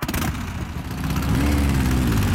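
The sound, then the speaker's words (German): A vintage motorcycle engine runs at a classic motorcycle exhibition, giving a steady low rumble that swells louder and rises slightly in pitch partway through. “kannst du es hören? Der Klang von Freiheit und Abenteuer, von unvergesslichen Erinnerungen, die Faszination einer ganzen Generation. Die Oldtimer-Motorradausstellung Golden Show Bikes”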